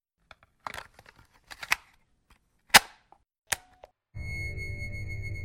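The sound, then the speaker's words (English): A tape is popped into a player with a scattered series of sharp clicks and snaps, the loudest in the middle, before a steady mechanical hum starts and runs to the end. “Let's pop in the synopsis tape.”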